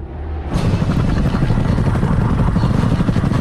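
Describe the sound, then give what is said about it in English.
Helicopter rotor noise from two black helicopters flying over dusty Syrian desert hills, starting abruptly and then holding as a loud, steady, rumbling chop. “Two black helicopters power across the dusty hills of the Syrian desert. They hover around an age-worn temple, a square mud-brick pyramid several stories high, and land in the sandy precincts below.”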